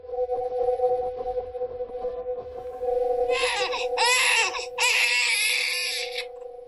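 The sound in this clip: An infant cries in loud, sobbing bursts that break in after a few seconds of quieter background with a steady electrical hum. The cries come in several wailing, strained phrases with brief catches between them, from a child who gets very upset.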